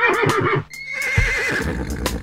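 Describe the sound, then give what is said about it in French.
A little horse neighs in a wavering, shaky whinny with a breathy rise and fall, loud and brief, heard alone. “Ce petit cheval fait.”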